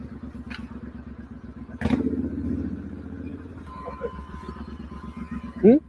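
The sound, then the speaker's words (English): Motorcycle riding in a played video, its engine a low, steady rumble throughout, with a louder surge of engine noise partway through and voices talking over it. “So it's a guy riding a motorcycle.”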